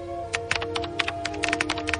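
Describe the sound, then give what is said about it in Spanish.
Someone types on a computer keyboard while sitting at a computer in a bedroom. Many quick, irregular keystrokes tap out in short bursts, fairly quiet, with no voices. “De pronto empieza a teclear algo que aparece en la pantalla.”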